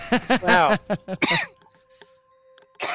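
Coughing from a person who has just choked on water: a run of harsh, voiced, strained bursts in quick succession, then a short near-silent pause before one more sharp cough.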